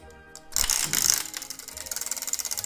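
A spinning prize wheel ratchets through a long run of quick, sharp clicks in a steady rhythm, after a brief louder rustling burst at the start.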